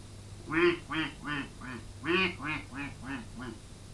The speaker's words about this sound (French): les canards faisaient